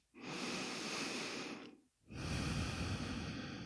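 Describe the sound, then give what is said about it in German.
Deep belly breathing in a guided relaxation exercise: two long, airy, rushing breaths of nearly two seconds each, separated by a brief quiet pause, with no talking. “Und atme bis tief runter in den Bauch, sodass du spürst, wie der Bauch sich rauswölbt mit der Einatmung.”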